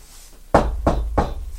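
Three firm knocks on a door, evenly spaced about a third of a second apart. Each is a sharp, loud, low thud standing alone over a faint background.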